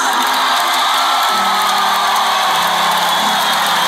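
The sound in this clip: A large concert crowd sings a song back to the performer, a loud, dense mass of voices holding sustained notes that shift pitch together, with cheering mixed in.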